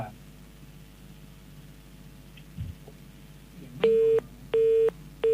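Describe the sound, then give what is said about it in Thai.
A telephone call fails to go through: low line hiss and faint noise, then three loud, steady, evenly spaced beeps of a busy tone. “เครื่องของคุณอ้อยเครื่องของหนุ่มเมืองยะโมนี่โทรไม่ติดโทรไม่ได้ยินเสียง”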